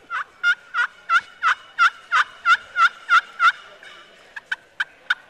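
Turkey yelps made with a hand turkey call: a series of eleven evenly spaced, raspy rising-falling notes, then after a short pause four quicker, sharper clucking notes, loud and alone.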